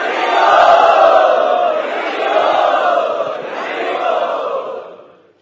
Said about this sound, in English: We would like to welcome him by loudly chanting.